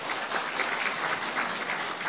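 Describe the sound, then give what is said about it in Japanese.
An audience at a church service applauds to welcome guests, a steady, fairly quiet patter of many hands clapping without a break. “拍手をどうぞ。”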